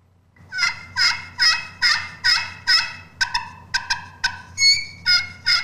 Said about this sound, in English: On the edge of the call versus the center of the call, you're going to get different sounds. Yep, you can tell there's different pitches yep. depending on where the location you're scratching. Yep, hickory.